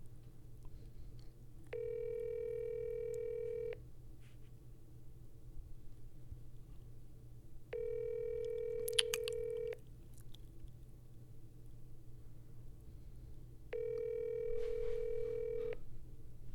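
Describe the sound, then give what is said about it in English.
Telephone line tones while placing a call: three long, steady tones, each lasting about two seconds and evenly spaced, sounding faint over a low constant hum with a few soft clicks in between. “Are you calling the PlayStation man? Who are you calling?”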